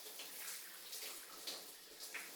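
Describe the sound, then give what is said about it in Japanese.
Shower water runs over a head of hair to rinse out shampoo, a soft, steady hissing spray with gentle surges and splashes, quiet and with no voices. “じゃあ頭から流しちゃうから、もうちょっとだけ目閉じててね。もう一回シャワー行くよ。シャンプーが残らないようにしっかりと隅々まで。”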